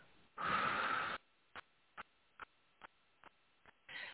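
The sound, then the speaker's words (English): A deep breath is drawn in and let out during a relaxation exercise: one long, breathy rush, then several faint clicks and a shorter breathy burst at the end. “I'm going to take a nice deep breath in and hold and exhale.”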